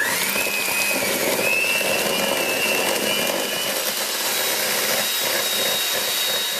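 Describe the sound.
An electric mixer beats milk into butter frosting made with icing sugar, giving a loud, steady whirring motor drone with a thin high whine that holds throughout and no talk.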